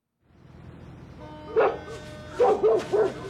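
A dog named Sunny barking: four short, sharp barks, one on its own, then after a pause three in quick succession, over a low, steady background hum.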